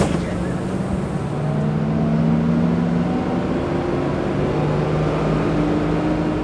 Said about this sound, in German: Mit dem Bus ins Zentrum. Die Fahrt dauert etwa 15 Minuten